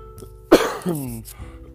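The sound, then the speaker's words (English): A single cough from a person with fever, body aches and sore ribs: one sharp burst followed by a short, voiced, rasping tail. “I'm coughing now a little bit, and the ribs are hurting a little bit”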